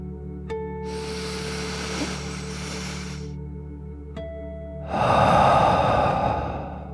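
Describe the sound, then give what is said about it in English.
A deep, slow 'dragon breath' taken in and then let out as a calming exercise: two long, airy breaths, the second louder and rougher, over a soft, steady musical drone. “As you continue to float, let's take one more deep dragon breath in and out.”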